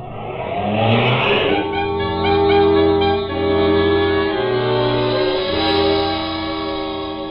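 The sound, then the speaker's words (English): A car drives off in a hurry, its engine revving loudly with steady tones that shift up and down in pitch. A short burst of noise comes near the start. “Jackie, Sammy, and the driver drove out of there in a hurry.”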